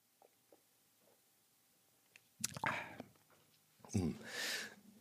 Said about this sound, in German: ich muss mal kurz einen Schluck trinken, weil ich jetzt schon einen trockenen Hals habe, weil ich die ganze Zeit so viel rede